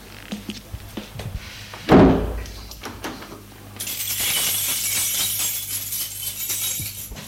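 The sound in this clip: A door being closed in an apartment gives a single solid thunk, followed by a few faint clinks, and later a steady hiss sets in underneath.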